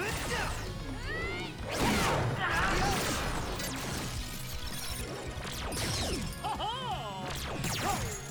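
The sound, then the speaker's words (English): Crashing hammer smash impacts land during an attack in a video game, packed into a dense mix of whooshes and swooping electronic effects. “Just hit it with the hammer.”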